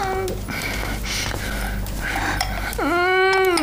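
A girl cries with tearful whimpers and broken sobs. The crying ends in a louder, wavering wail over a constant low background hum.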